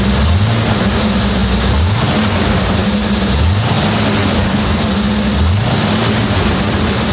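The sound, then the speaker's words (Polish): A classic car's engine runs steadily right after starting up following a long period standing unused. It makes a loud, continuous rumble and hiss with a faint recurring low throb, and no talk. “Pracuje pięknie i odpalił od razu. Myślę, że nie najgorzej zapalił, jak po takim czasie stania.”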